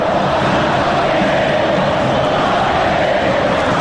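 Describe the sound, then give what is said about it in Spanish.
Instituto football fans chanting in the stands of the Kempes stadium during a match against Boca, a dense, sustained roar of massed voices that holds steady and loud from start to finish. “Canta el público de Instituto una canción de las mejores del fútbol argentino. Que se escuchan por el público, para toda la cadena nacional.”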